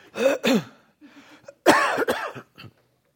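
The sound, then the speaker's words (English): Hiccups: a few short, abrupt vocal bursts with a voiced, throaty quality, coming in uneven clusters with brief pauses between them. “I not only got it, I got the hiccups. You know how to get rid of hiccups when you got them?”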